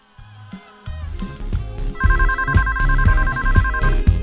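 A telephone rings in a radio studio booth, its ringing repeated in short bursts over loud background music with a steady beat.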